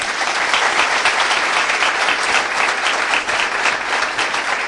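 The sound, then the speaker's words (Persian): Audience clapping at a meeting, a dense, even wash of many hands that holds at a steady, fairly loud level with no break and no voices standing out. “خب جلسه رو میدم. خب دست بزنیم.”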